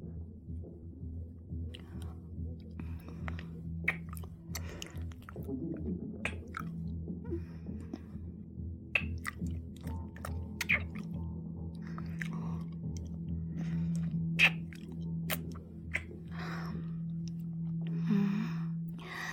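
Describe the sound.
Chewing and eating a dessert: many irregular moist bites and smacks, close and fairly soft, over a steady low drone.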